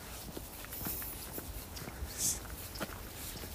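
Faint, steady footsteps of someone walking along a country path through rural farmland near Isehara, heading toward the Oyama mountains. The soft, regular steps sit over quiet outdoor background noise.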